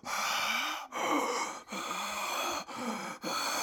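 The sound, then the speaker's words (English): A voice imitates heavy breathing into a telephone receiver. It makes several long, loud, raspy breaths separated by brief pauses, with no words spoken. “somebody calls the house and is breathing into the phone really heavily, like,”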